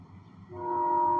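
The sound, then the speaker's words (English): A train horn blares as one steady, sustained tone. It starts partway in and holds at a loud, even level over low rumbling rail noise. “The fact is, that's a train horn. My opinion is, it's annoying as shit.”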